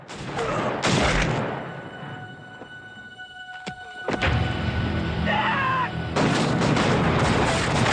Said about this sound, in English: The regulators open fire on the hut, peppering it with bullets.